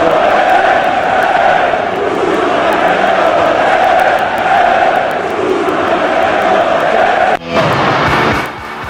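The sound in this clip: Spanish football fans chant in a stadium, a loud, sustained mass of voices that holds for several seconds before cutting off abruptly near the end.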